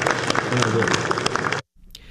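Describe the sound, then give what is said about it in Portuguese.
Applause for the guests at a special session of the Brazilian Senate honouring the Superior Labour Court's 80th anniversary: dense, loud clapping with voices mixed in, cutting off abruptly near the end. “Salva de palmas a vocês.”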